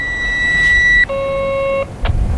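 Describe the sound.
A copper mine's blast-firing warning signal in Queensland, sounded daily at 8 a.m. and 8 p.m. It is a loud, steady electronic tone that drops from a higher note to a lower one, each held for about a second.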